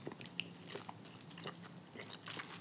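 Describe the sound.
Biting and chewing on something sticky: a run of crisp, irregular crunches and wet smacking clicks at a fairly low level, with no voices over them.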